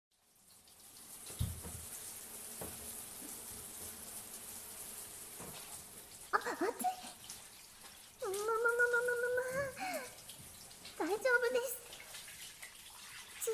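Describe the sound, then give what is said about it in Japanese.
Water pours steadily to rinse a body in a bath, a continuous soft splashing stream that runs throughout, with a voice speaking over it in the later part. “ではまずはお体流しますね。”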